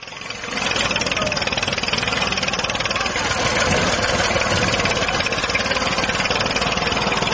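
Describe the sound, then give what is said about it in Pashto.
Tractor and Ranger truck engines roar steadily as they destroy a poppy field in Garmsir district, Helmand. The loud, continuous rumble holds nearly constant for the whole stretch. “د هلمند ولایت ګریش ولسوالۍ په یوه ویلوی کلیپ کې لیدل کیږي چې طالبان د ټرکټر او رینجر موټرونو په وسیله د کوکنارو یوه کرونده ویجاړوي.”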